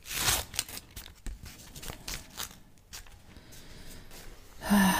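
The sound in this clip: Someone tears open the glued top of a package, making a few rough ripping and crinkling bursts in an uneven rhythm, with quieter rustling in between.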